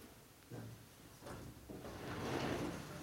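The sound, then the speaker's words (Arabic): A window being opened gives quiet sliding and rubbing sounds: a few short scrapes, then a longer, fuller slide, with no talk. “نفتح النافذة حتى يرجع الصوت يا إخواني.”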